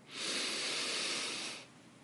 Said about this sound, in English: So at this time, take a deep breath.